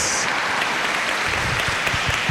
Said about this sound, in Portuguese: Isto, uma salva de palmas às nossas crianças. Viva as nossas crianças.